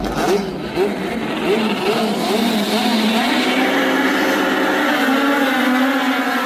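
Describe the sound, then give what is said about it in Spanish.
Engines of national touring-car race cars revving and racing: a loud, continuous mechanical roar whose pitch sweeps up and down, then settles into a steadier rising whine, with no voices. “La lucha rueda a rueda, el chapa chapa, el sobrepaso imposible, la frenada al límite, la emoción que solo el turismo nacional puede regalar.”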